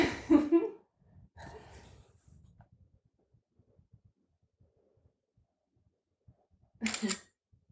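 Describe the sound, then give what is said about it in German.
Camera shutter clicking as a photo is taken: a single short, sharp click near the end, after a few brief earlier bursts of sound and a long quiet stretch. “Warte, warte, ein Foto, Foto, Foto.”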